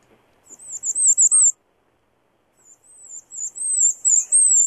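Very high, thin song of a bay-breasted warbler, rapid repeated notes in two separate bursts split by a silent gap, the second longer; clear and alone.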